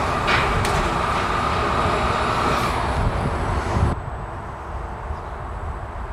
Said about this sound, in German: Jetzt wird der aktuelle Akku entnommen. Der fährt dann unter dem Bereich des Kollegen.